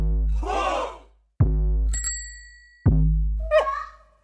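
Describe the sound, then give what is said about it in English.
A TikTok sonic logo variant with a fixed 808 pounds out three deep, booming bass hits that each decay slowly, while different short user-generated sounds change between them, including a bright metallic chime. “In this never the same twice idea, the 808 would stay fixed. But on the back end, you have different UGC sounds coming through and changing. For instance, maybe something like this.”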